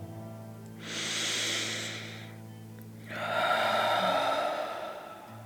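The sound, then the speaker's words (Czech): A deep breath drawn in through the nose, then a slow, long breath out through the mouth: an airy, hissing inhale followed after a short pause by a longer, fuller exhale. “Pojďme se i my zhluboka nadechnout a pomalu dlouze vydechnout. Nádech nosem a výdech pusou.”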